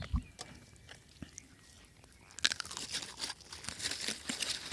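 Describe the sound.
Someone chews a homemade muesli bar: a few isolated clicks, then a burst of loud crunching about halfway through that continues as repeated, irregular crunches.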